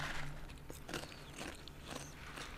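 Crunchy chewing of a tandoori-flavoured insect snack from a Swiss insect farm: many crisp, crackling bites and grinding sounds at a fairly faint, steady level, with no talking.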